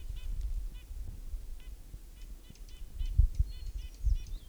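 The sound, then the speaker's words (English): A hermit warbler sings an atypical song, a series of thin, high, buzzy notes repeated in short clusters, faint over a steady low rumbling background. “Hermit Warbler, Atypical Song.”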